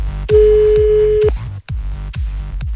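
A telephone ringback tone sounds on the line of a radio call-in quiz: one long, steady mid-pitched tone holds for about a second over a rhythmic music bed with regular punchy beats.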